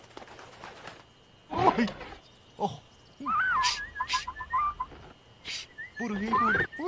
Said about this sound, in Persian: برو دیگه پرنده ابله وای برو دیگه الان لباس درختیمو خراب میکنی برو دیگه چه پرنده ای خیلی سمجه